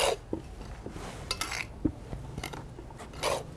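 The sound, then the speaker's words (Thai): Dry plant material and fish compost are tossed and mixed together by hand, giving faint crackling rustles broken by several irregular, brittle bursts. “โอเคงั้นเราลงมือทำกันเลยครับว่าเราทำไงเราเอาก็คือเอามากองรวมกันใช่ไหมครับตามสูตรที่เรากำหนดไว้เนาะ ใช่ค่ะ แล้วก็ คลุกเคล้าเลยค่ะคลุกให้เข้ากันก่อนแล้วเดี๋ยวเราก็ราดน้ำค่ะ”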